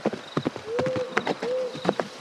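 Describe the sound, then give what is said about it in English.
A centaur's hooves clip-clop on a hard surface in a steady, even rhythm of many hoof strikes, fairly faint. “I see something up ahead. I think it's a centaur. It is. Ah, shit, he sees me. He's coming this way.”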